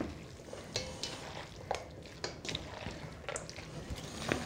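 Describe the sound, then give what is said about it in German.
Bacon is stirred quickly in a frying pan, giving a steady soft sizzle broken by many short, irregular scraping and stirring clatters. “So, jetzt haben wir hier auch den Speck drin. Jetzt gut und schnell rühren, damit es kein Rührei gibt.”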